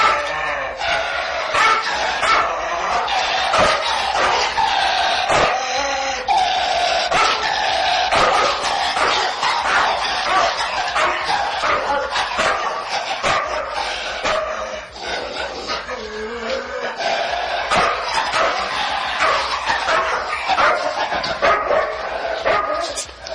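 A dog barks loudly and repeatedly, many sharp barks mixed with yips and whimpers in a continuous, agitated stream that keeps going without a pause.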